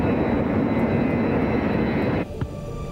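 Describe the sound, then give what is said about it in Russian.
An airplane flies through the night sky, its engines a loud, steady, broad roar that holds evenly, then drops abruptly to a quieter hum near the end. “Самолет летит в ночном небе.”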